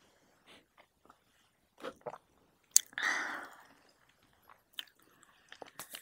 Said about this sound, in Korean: 안주도 먹고. 음 맛있다 맛있다